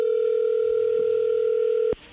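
A telephone dial tone before a call is placed: one loud, steady, single-pitch tone that holds unbroken, then cuts off abruptly with a click near the end.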